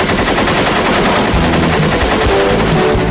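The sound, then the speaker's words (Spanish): Rapid automatic gunfire from a film trailer, loud and sustained: dense, overlapping bursts of shots run continuously through the whole clip, with no voices. “Próximamente disparos a cascoporro en los cines más sobrados.”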